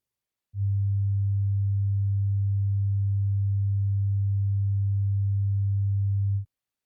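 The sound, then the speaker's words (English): A low 100 hertz sine test tone enters after a short silence and drones at constant level and pitch for about six seconds before stopping, with nothing else heard. “100 hertz.”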